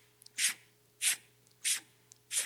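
A free diver demonstrates a breathing technique with four short, forceful breaths at a steady rhythm. Each is a sharp, hissing rush of air, with faint small clicks and gasps between them.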